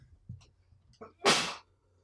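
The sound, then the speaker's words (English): A single loud, explosive sneeze bursts out after a couple of short, sharp intakes of breath, then quiet follows. “Yeah, I need to sneeze.”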